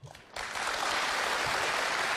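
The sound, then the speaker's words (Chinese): Audience applause welcoming two comedians for a crosstalk act. It bursts in abruptly after a brief quieter moment, then holds as a dense, even wash of clapping. “咱们掌声请出这二位。”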